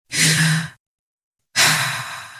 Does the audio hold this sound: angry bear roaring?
no